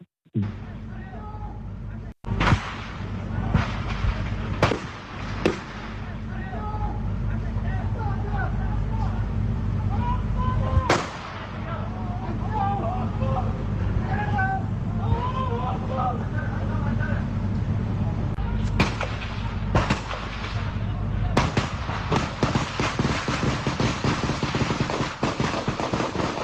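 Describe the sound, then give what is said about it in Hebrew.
Gunshots and screams during an attack, caught on a phone recording sent over WhatsApp: several sharp cracks at irregular intervals cut through a constant noisy wash, with raised voices throughout. “בעצם הוא מקליט, עוד מקליט, הוא לא מדבר, כי הוא חושש שימצאו אותו אם הוא ידבר, והוא מקליט, וכך שומעים את היריות ואת הצרחות של המחבלים הארורים”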